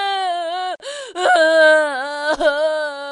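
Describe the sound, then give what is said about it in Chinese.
A child cries in a high, sustained wailing voice that wavers in pitch, broken by a few brief catches of breath, loud and unaccompanied. “小朋友，你为什么哭啊？”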